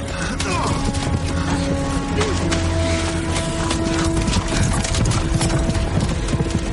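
A horse gallops away with rapid, steady hoofbeats. The drumming is dense and continuous and stays at an even loudness throughout.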